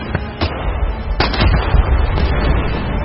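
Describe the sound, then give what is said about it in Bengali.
Cannon fire and gunfire from a pirate ship: a few sharp, heavy blasts early on, then a loud, continuous rumbling barrage of overlapping shots and booms. “বোম্বেটে জাহাজ থেকে হুঙ্কার দিয়ে উঠল কামানের সারি এবং সঙ্গে সঙ্গে সাই দিয়ে তপ্ত বুলেট পাঠাতে লাগল বন্দুকগুলো।”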